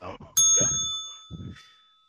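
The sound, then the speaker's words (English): A bell is struck once, giving a bright, clear ring that hangs and slowly decays for over a second. Voices talk just before the strike and briefly while the tone is still fading. “Ring the bell.”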